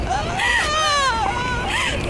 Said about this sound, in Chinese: 我的孩子， 我的孩子，别哭了，别哭了， 别哭了， 孩子。